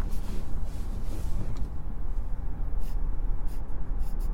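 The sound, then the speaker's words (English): Pencil strokes scratch across paper as a picture is drawn, with several short, soft scratches over a steady, noisy background. “I'm gonna draw it.”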